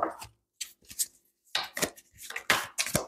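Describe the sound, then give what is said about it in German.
A deck of tarot cards is shuffled thoroughly, giving several short, crisp riffling bursts separated by brief gaps, fairly quiet and with no talk over it. “Ich mische nochmal gründlich durch.”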